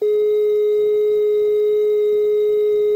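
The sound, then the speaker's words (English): A telephone number-unobtainable tone plays as one continuous high-pitched electronic note, steady and loud, with no breaks and no other sounds. “The number unobtainable tone is a high-pitched note without interruptions, like this.”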